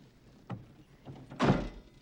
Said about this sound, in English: Can I close the door? Yeah, shut the door.